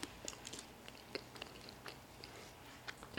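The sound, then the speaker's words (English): Faint chewing of a communion cracker, with soft crunchy clicks and bites scattered irregularly over a low, hushed background. “Go ahead and eat the cracker.”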